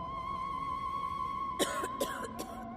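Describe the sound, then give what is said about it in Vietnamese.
A sudden fit of harsh, hoarse coughing breaks out in a few sharp bursts over a steady droning hum. “Có tiếng ho sặc sụa bất thình lình vang lên, làm cho anh giật bắn cả người.”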